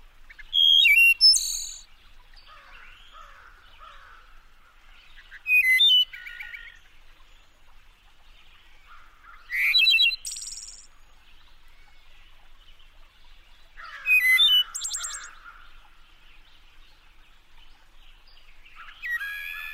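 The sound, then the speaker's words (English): Wood thrush song echoing in a deep mountain ravine in the Smoky Mountains on a late April day: fluty, ringing phrases in short bursts, each separated by several seconds of near quiet, with no voices. “here's a longer recording of a wood thrush that Lang Elliott made”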